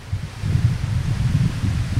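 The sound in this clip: Wind blowing outdoors where wine is being poured into light glasses, a steady low buffeting rumble with soft rustling that swells and eases in gusts across the whole moment, with no voices.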